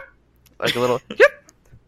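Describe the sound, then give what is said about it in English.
A human voice imitates a pet hamster's high-pitched bark, giving two short yappy vocal bursts, the first longer and buzzy and the second brief and sharp. “Hammy had a special talent, and he could, I swear to God, he could bark on command. Like a little high-pitched,”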